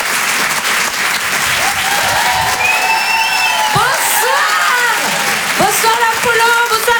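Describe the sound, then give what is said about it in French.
Audience applause at a comedy club: dense, loud, continuous clapping with cheers and whoops rising over it throughout. “Faites du bruit s'il vous plaît pour Myriam Barouk.”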